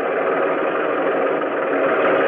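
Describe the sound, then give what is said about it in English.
Heavy engine rumble as tanks roll onto the deck of a landing ship: a dense, steady mechanical drone that holds at an even loudness throughout, with no voices. “the first step was to get the boat loaded. Stinky and Jimmy and me and some of the others stood up near the bow gun, where we could watch the tanks roll on deck.”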